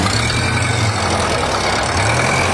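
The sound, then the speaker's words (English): An old hand-cranked car engine running with a loud, constant low rumble and a dense mechanical drone that holds steady from start to finish. “I'll crank it for you, but you'll have to drive it.”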